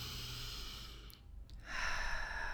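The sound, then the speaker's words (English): A deep inhaled breath taken during a guided relaxation exercise, a soft airy rush that dips briefly before swelling louder again. “Take a deep breath in.”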